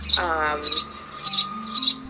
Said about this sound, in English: you can see Mama Bird here has a nest up in here. So, and I absolutely love just sitting on my porch and just listening to her chirp.